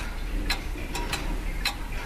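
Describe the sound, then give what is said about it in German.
Ticking of a wooden grandfather clock, a mechanical floor-standing pendulum clock: a few soft, sharp ticks at an uneven pace over a low, steady background rumble. “So eine Standuhr aus Holz gab es auch im Wohnzimmer meiner Großeltern. Mein Großvater hat sie aufgezogen. Heute müssen manche den Umgang erst neu lernen. Richtig eingestellt gehen diese mechanischen Uhren ganz genau.”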